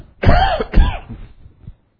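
Throat clearing by a man during a sermon: two harsh, rasping bursts in quick succession, fairly loud, fading into a faint rumble, with no speech.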